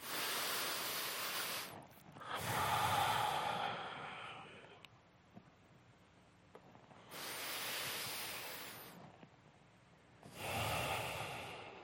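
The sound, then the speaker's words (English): A person takes two slow, deep breaths, each a long, airy, slightly nasal inhale followed by a long exhale, with a pause between them. The breathing is fairly quiet and there is no talking. “Number one, stop and take a breath or two. I mean, literally, I do it like this.”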